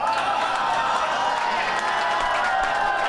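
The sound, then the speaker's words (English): A studio audience cheers and applauds in an unbroken, even roar of clapping and shouting that stays loud for the whole clip. “Man, whenever you end a sentence with a movie title that he's in, the audience erupts like a volcano.”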